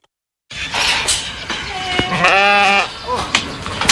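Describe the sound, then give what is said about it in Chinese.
Sheep bleating in a farm pen, with several wavering, harmonic-rich calls rising over a steady background of shuffling and clatter from the flock. “走进磴口县卜龙闹镇夹道村，村民庄明亮家的羊圈舍里羊群个个膘肥体壮”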